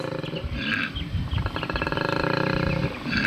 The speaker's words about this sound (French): Ah, ben lui, c'est un koala. Évidemment que c'est un koala. Mais c'est un koala. Écoutons le son du koala.